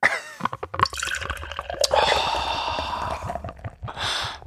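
Beer pours from an unwieldy bottle, a steady rushing, gurgling stream of liquid with scattered clicks and splashes. The sound holds fairly loud for a few seconds, then eases.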